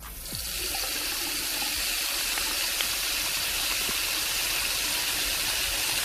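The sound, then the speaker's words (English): Water running from a tap into a sink, a steady, unbroken hiss with a rushing, bright quality that stays even in loudness throughout, with no voices. “the sound is a running tap. A running tap is what we're looking for today.”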